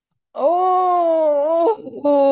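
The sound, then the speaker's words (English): A person groans alone in a long, sustained, voiced moan that wavers slightly in pitch, breaks into a short breathy catch, then starts again as a second groan. “That's a groaning.”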